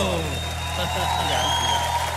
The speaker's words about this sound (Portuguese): salva de palmas, meus amigos.